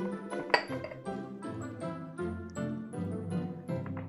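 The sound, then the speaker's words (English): Clinks and scrapes of a spoon against a prepared, oiled pudding basin as pudding mixture is transferred in, one sharp clink early on followed by softer, quieter taps and scrapes. “what we're now going to do is transfer the mix to the pudding basin.”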